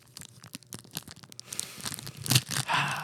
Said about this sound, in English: The sound of a new pack of Pokemon cards.